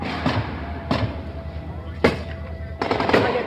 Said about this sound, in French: La mitraillette a été tirée par les manifestants. C'est les militants de l'Arc qui viennent de tirer à la mitraillette à l'instant.